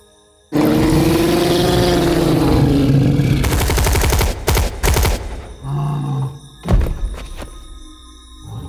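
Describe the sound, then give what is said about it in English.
A deep, drawn-out creature roar gives way to rapid, loud bursts of gunfire in a dramatized night scene after a crash landing. The shots come in clustered volleys, then a few scattered thuds as the firing tapers off. “Well, everyone at the base will have heard the shots.”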